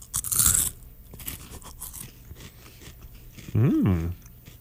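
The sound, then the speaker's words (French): Biting into food during a public tasting: one loud, crisp crunch near the start, followed by quieter, softer chewing sounds. “Es-tu prêt à croquer dans ton poids?”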